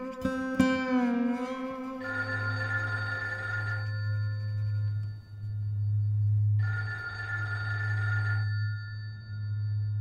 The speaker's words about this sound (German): Ah, Telefon.